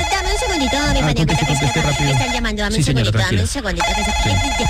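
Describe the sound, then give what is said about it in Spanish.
A telephone ringtone plays throughout, a bright, steady melodic tone that holds at an even loudness, with a voice talking over it. “Dame un segundito, dame un segundito. Están llamando, dame un segundito.”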